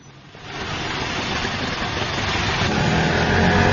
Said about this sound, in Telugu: అదేమిటినైనా, auto ఆపుతున్నావేమిటి?